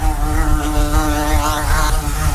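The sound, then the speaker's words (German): A wasp buzzing in a loud, continuous, droning hum with a wavering tone that runs unbroken for a couple of seconds, with no voices. “Das Wespe.”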